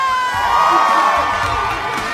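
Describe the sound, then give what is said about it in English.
A large crowd of fans cheers, shouts and whoops, loud and sustained without a break, with excited high-pitched voices riding on top of the roar. “All the fans out here are going crazy.”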